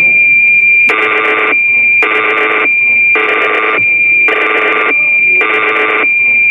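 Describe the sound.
Digital synthesizer presets played one by one: five evenly spaced, loud, bright tone bursts, each lasting about half a second, over a constant high electronic whine.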